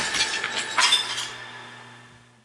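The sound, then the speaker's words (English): Glass soda bottles shattering inside an elevator: a cluster of sharp, bright crashes and clinks over the first second or so, then a ringing tail that slowly fades away. “Well, I brought glass with me. I was breaking it. I had soda bottles. So you broke a bunch of glass in the elevator.”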